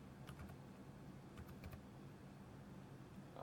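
Computer keyboard typing while a search term is entered into a web search, a few faint, scattered key clicks over a steady low hiss.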